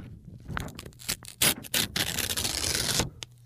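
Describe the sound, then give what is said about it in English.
Paper is ripped slowly for ASMR, giving soft, scratchy crackles and a few sharper tearing bursts, then a longer sustained rip before it fades. “I'm going to stop ripping the paper now.”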